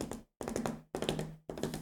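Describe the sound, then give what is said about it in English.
Hand tapping that imitates a galloping horse, with quick clustered knocks grouped into four bursts separated by short pauses, keeping a steady hoofbeat rhythm. “That's the sound of SMU galloping their way into the ACC.”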